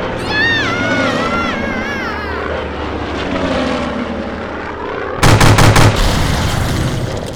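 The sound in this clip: A burst of four quick gunshots during an aerial chase rings out over the steady drone of a propeller aircraft engine, whose pitch wavers before the firing starts.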